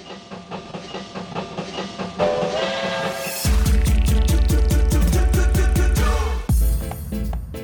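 Train sound effect: a steady, rhythmic clickety-clack of wheels on rails with steam hiss builds up partway through and then runs loud and even to the end.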